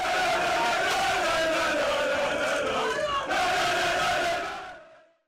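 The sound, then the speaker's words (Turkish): Galatasaray football fans roar and chant in packed city squares, celebrating the club's fourth straight Turkish Süper Lig championship. A loud, dense crowd sound holds steady throughout, then fades out at the end. “Sezonu şampiyonlukla taçlandıran Galatasaray taraftarları tabii kutlamalar için meydanları doldurdu.”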